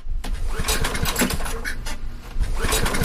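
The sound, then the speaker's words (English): A portable generator that has not run since 2022 is cranked in a basement and fails to start. Its loud, rough, rapid sputtering churns on continuously, surging in a few bursts without catching. “You're down in the basement holding a flashlight in your teeth trying to start a portable generator that has not run since 2022. It doesn't start.”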